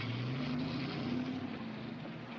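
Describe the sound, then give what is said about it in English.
A taxi cab driving off, its engine giving a steady, fairly quiet rumbling hum with a faint tonal drone, holding through the whole stretch. “The cab drives off.”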